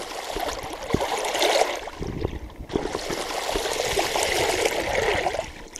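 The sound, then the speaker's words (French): River water flows steadily around a canoe on the Vilaine, a continuous rushing, trickling wash with no pauses and no voices. “on embarque en canoë sur la Vilaine pour remonter la Vilaine”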